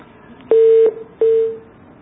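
Telephone tones sound as a phone call drops: two steady mid-pitched beeps, each about half a second long, with a short gap between them. The second beep fades out at its end.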